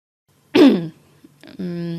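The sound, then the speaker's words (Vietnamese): A person clears their throat in one short, harsh, raspy burst, and after a brief pause a steady voiced hum follows. “Tôi quyết định hắng giọng lên mấy tiếng.”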